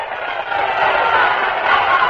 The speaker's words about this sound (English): the 25,000 Tennesseans crowded into the streets set up a giant cheer